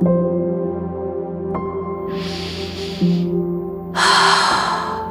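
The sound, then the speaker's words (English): Two slow, deep, relaxing breaths, heard as soft breathy rushes, the second fuller than the first, over a steady sustained musical drone. “Let's take a couple of deep breaths.”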